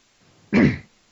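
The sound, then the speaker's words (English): Throat clearing, a single short, harsh burst that fades quickly, heard alone without talk. “Sorry, I got something in my throat.”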